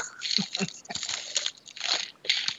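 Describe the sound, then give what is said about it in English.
Crunching ice, a run of crisp, irregular crunches and crackles close together, some louder than others, with no clear speech over them. “I love the ice sound. The other podcasts don't give you that. That's that ASMR.”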